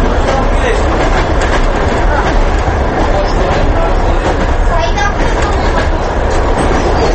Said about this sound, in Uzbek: Moskvaning Qozon vokzali, O'zbekistondan poyezdlar ana shu vokzalga keladi.